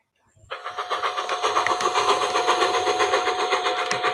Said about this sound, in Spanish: Esto es un tren.